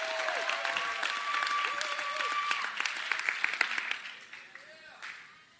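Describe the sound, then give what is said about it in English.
Audience applause welcoming a speaker to a faith gathering, a crisp patter of many clapping hands with voices talking over it, tapering off toward the end. “Can we just welcome Brian tonight to come and share with us?”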